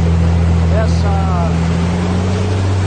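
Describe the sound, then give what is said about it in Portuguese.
Low, steady engine drone of a tractor driving through flood water near the Lapa bridge in São Paulo's Zona Leste, a continuous rumbling hum that holds at an even level throughout. “o apresentador contou com a carona de um trator. Dá uma olhada. Na Zona Leste de São Paulo, lá, por dentro da TV Cultura, é essa aqui, olha só. Perto ali da ponte da Lapa,”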